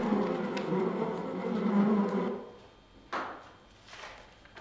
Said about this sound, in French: Bourdonnant L'insecte déchaîné va nous attaquer